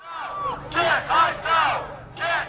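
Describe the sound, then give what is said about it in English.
Angry protesters outside a town hall forum with the country's immigration enforcement official, a crowd shouting in loud, rhythmic chanted bursts separated by brief pauses. “That's the sound of angry protesters outside yesterday's town hall forum.”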